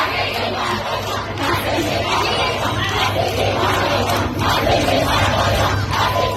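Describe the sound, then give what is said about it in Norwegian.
Female students in Shiraz, Iran, chant in protest against the secret police, their voices joined in a loud, rhythmic unison chant that carries on steadily without a break. “Dette er lyden av kvinnelige studenter i den iranske byen Shiraz som ber det hemmelige politiet ryke og reise.”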